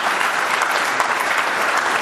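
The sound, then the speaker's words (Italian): An audience applauds an acrosport pair who won gold medals at national and international competitions. The clapping is a dense, steady clatter of many hands and stays loud throughout. “Complimenti, un applauso.”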